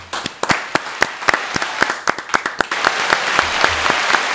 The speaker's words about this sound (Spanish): Dame unos aplausos ahí para un drum